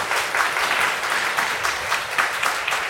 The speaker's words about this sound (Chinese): 我们一起鼓掌欢迎文森弟兄。